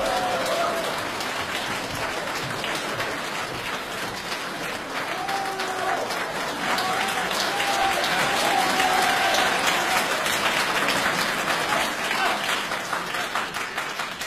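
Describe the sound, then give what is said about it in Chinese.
An audience applauds to welcome two crosstalk (xiangsheng) comedians onto a stage: a long, dense wash of clapping that holds steady, swells slightly in the middle and then eases off. “请大家欣赏相声问三国，表演者呢是优秀的青年相声演员史不凡和他的师父李金斗，掌声欢迎。”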